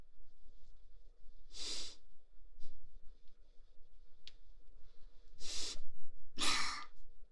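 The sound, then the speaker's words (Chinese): Heavy breathing from a person alone at home: a few loud, breathy exhales spaced irregularly over a faint steady hum. “你喘的能不能小点声啊？我知道你个人在家，可你这喘的也太大声了吧，我听着不好意思。”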